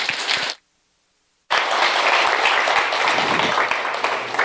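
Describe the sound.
Audience applause welcomes a guest speaker at a church service. Dense, loud clapping cuts out for about a second near the start, then resumes and continues steadily to the end.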